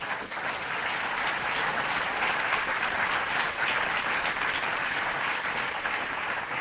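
Sustained audience applause at a pledge-signing ceremony with President Clinton, a dense, even wash of many hands clapping that holds steady throughout without voices.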